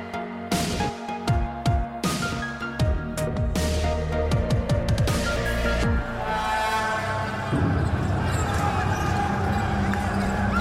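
Basketball bouncing during a Cuban team's tournament game in Puerto Rico: many quick, sharp thumps of the ball on the court in rapid runs, over a steady background din.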